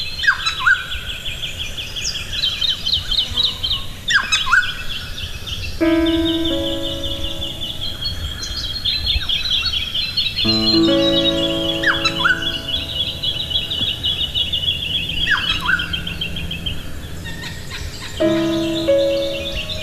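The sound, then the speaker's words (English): Birds calling at dawn around a campsite in a national park near Goulburn, New South Wales: a dense chorus of bright, high chirps and trills overlapped by repeated lower, warbling calls, with no voices present. “she realised she could get back at all of these birds by sending their private conversations”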